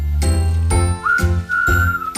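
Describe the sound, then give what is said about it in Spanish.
A short chiming jingle signals an incoming phone call on a radio show. A few bright, ringing hits are heard, with a sustained whistle-like tone held between them. “Espera, que me está diciendo. Hay una llamada. ¿Quién será?”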